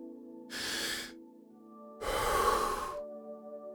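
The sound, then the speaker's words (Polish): Breath sounds in a breathing exercise: a deep, quick inhale followed after a pause by a fast, full exhale that is louder and longer, both breathy and airy. “Weź teraz bardzo głęboki, dynamiczny wdech i szybko wypuść całe powietrze.”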